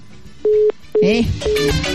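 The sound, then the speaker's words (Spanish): A telephone line tone sounds on a call-in phone line as three short, steady, mid-pitched beeps, with a voice speaking over the second and third. “Tenemos llamadita telefónica. Llamada al aire, buenos días.”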